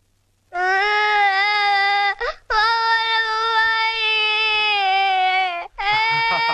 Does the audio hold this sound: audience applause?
no